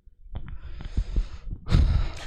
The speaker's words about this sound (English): No, no, I know which name it is. I know that breath.